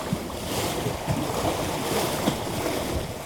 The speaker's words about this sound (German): Wellen, die hart gegen das mit Mauerwerk verbaute Ufer schlagen und es zerstören,